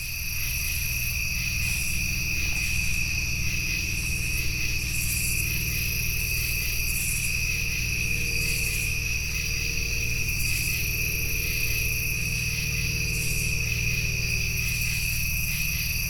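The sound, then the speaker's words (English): Crickets and other insects fill an outdoor bayou soundscape in southern Illinois, a dense, steady chorus of high, shrill trilling that stays loud and unbroken throughout, with a low rumble beneath and no voices. “That was the sound of Turkey Bayou, all the way over in southern Illinois.”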